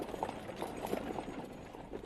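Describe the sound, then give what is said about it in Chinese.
Hooves of a horse pulling a carriage gallop away in a fast, steady, rhythmic clip-clop that holds at a moderate level throughout, with no voices. “等胡管家再回过头来，马车已经飞驰而去。”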